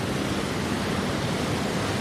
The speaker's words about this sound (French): on est juste derrière le trou, c'est qu'on est au niveau de la rivière